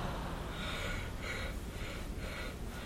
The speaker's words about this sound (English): On the count of three, one, two, three. Exhale.